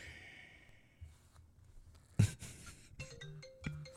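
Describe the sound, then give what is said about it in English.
A default smartphone ringtone begins near the end as a short run of steady, mid-pitched tonal notes, after scattered soft rustles and one sharp clatter. “Can you change your ringtone away from the default?”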